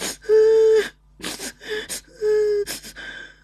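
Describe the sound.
A child sobs and cries over a phone line to the police. Drawn-out, wavering wails are broken by sharp, breathy gasping inhales, repeated several times.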